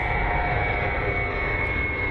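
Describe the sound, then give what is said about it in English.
A freight jet carrying parcels takes off from the new airport in the middle of the night. Its engines make a loud, steady roar with a sustained high whine throughout, and no voices are heard. “That's how it sounded when it did eventually happen. There is no curfew at the new airport like there is at Mascot. Planes can take off 24 hours a day.”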